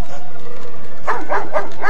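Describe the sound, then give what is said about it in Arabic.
A dog barking: after a quiet opening, four short, sharp yapping barks follow in quick succession, loud and evenly spaced. “في هذه اللحظات سمع نباح الكلب ورآه يثب ويخرج من بين ألسنة النار. التفت الكلب إلى جموع الناس وراح ينبح،”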